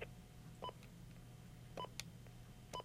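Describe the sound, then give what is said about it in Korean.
Telephone keypad tones entering a four-digit password into a voicemail system: four short, sharp beeps at uneven intervals over a faint steady background. “비밀번호 네 자리를 눌러주십시오.”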